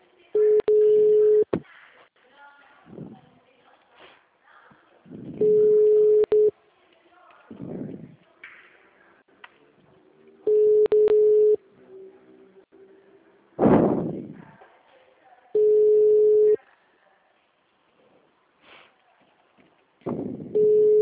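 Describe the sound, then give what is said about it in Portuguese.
Telephone ringback tone while a call is being placed: a steady mid-pitched tone sounds in roughly one-second bursts about four seconds apart, five times with the last cut off, and talk is heard in the gaps. “Tá, eu tô ligando, tô fazendo ligação.”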